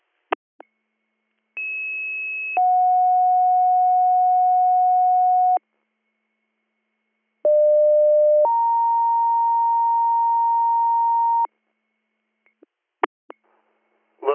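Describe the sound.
Emergency dispatch pager tones: two separate two-tone sequences, each a short tone followed by a longer held tone, divided by silence, with faint clicks at the start and end.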